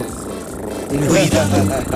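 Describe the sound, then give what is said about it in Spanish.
A human voice imitates a cat purring as it is stroked on the neck, producing a loud, rough, rolling rumble that gains strength partway through. “¿Viste cuando acariciás un gato en el cuello? Sí. Empieza a hacer.”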